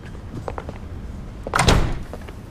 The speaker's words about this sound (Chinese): 把门关上